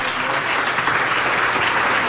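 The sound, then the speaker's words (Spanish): Audience applause from an audience during a religious sermon: dense, steady clapping that stays at an even, fairly loud level throughout, with many overlapping claps blending into a continuous wash and no clear voices. “Denle un aplauso a Jesús, aleluya.”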